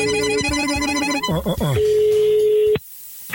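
Telephone ringing tones on an outgoing call, with steady electronic tones and a long held tone that cuts off abruptly near the end, followed by quiet.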